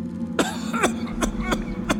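A man's phlegmy cough with dry, cracked lips: five harsh, wet bursts in a fairly even rhythm, loud and alone with no talk.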